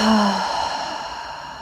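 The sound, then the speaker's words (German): A single deep breath is exhaled after breathing in through the nose, a long, airy rush of breath that slowly fades, with no talking. “Atme tief durch die Nase in diesen Bereich ein. Und aus.”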